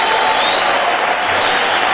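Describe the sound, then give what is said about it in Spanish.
Loud, dense applause from an audience during a church service, a continuous wash of clapping hands that stays steady and full throughout. “Dale fuerte el aplauso a Jesús.”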